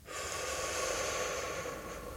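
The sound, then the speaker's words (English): A single long breath, a steady, airy rush of air that starts abruptly and holds at an even level for about two seconds before easing slightly. “Breathe in. Breathe out.”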